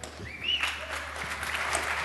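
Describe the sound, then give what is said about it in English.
Gathered campers at a music and technology camp clap softly. The clapping is faint and scattered and stays quiet throughout the short stretch. “That deserves applause.”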